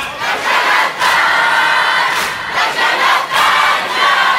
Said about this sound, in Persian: اگه بدونید چقدر قشنگ سینه میزنن، چقدر قشنگ جواب میدن.